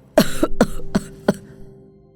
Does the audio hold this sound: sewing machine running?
no

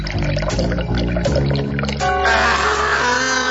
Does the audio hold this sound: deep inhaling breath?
no

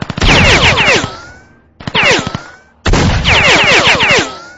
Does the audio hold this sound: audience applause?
no

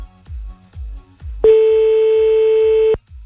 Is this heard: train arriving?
no

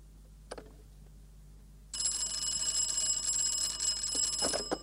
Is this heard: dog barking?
no

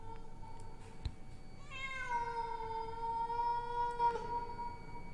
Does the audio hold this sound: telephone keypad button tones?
no

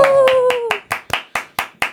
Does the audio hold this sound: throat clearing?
no

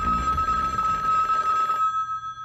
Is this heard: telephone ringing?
yes

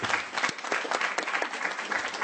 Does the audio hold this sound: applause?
yes

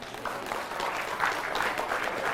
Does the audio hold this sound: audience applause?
yes

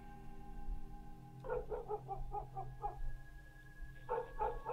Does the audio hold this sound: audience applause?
no

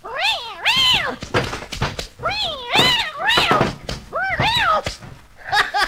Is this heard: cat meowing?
yes

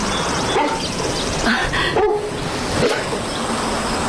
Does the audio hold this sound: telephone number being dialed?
no

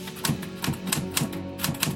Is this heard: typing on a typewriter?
yes

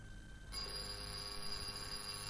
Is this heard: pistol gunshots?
no

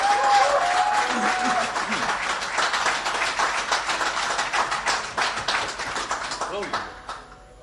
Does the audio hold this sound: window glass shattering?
no

